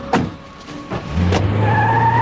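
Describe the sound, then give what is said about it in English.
A car drives off after men put someone inside. A few sharp knocks come first, then a loud, steady engine drone takes over and holds to the end. “The men put Porter in a car. And Pearl watches them drive away.”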